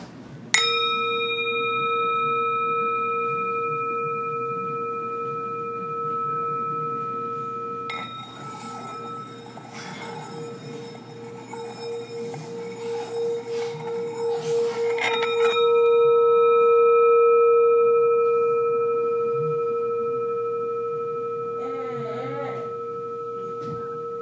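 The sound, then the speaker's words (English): A sound bowl rings with steady, pure sustained tones. It is struck a few times, each strike adding new layered pitches, and the humming overtones waver and pulse slowly as they hang in the air. “I want to kick things off with a bit of a sound bowl to clear the chakras and help melt some of that stress away.”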